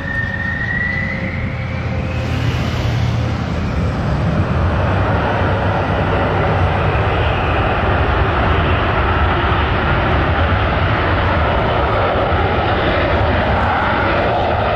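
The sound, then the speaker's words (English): An F-16 fighter jet takes off near an airport. A loud, dense engine roar holds steady for the whole stretch, with a thin whine rising in pitch near the start. “are you vehemently against the sound of an F-16 taking off around your home?”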